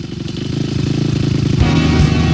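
Custom hot rod engines revving, a deep, pulsing low rumble with a steady throb that grows louder partway through.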